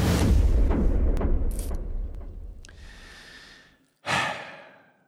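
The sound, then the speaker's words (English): A deep, loud, breathy rush of air tapers off over a few seconds. After a brief pause comes a sharp, short puff of breath that fades quickly. “Jeez, you're taking a deep breath.”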